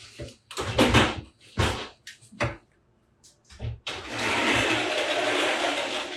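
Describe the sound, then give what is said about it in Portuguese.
A window being closed at home: a few sharp knocks and scraping bumps in short bursts, then a steady broad hiss that carries on to the end. “Deixa eu só fechar minha janela aqui, senão não vai adiantar.”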